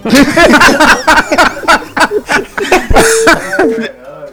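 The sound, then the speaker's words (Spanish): A person clears their throat in a run of rough, gravelly bursts, mixed with short chuckle-like sounds. The bursts are loud and repeat in an uneven rhythm over a few seconds. “Ya. Arregle la garganta.”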